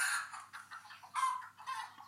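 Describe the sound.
A hen clucks in a few short, faint bursts with brief pauses between them.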